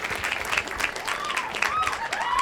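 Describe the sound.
Applause from an audience welcoming the two stars of Swiss Army Man as guests: steady, dense clapping with cheers and whistles rising through it, holding loud for the whole stretch.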